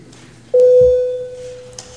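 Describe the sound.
A bell rings in a parliament chamber before a vote: one clear, steady, mid-pitched tone that sounds loudly and then slowly fades.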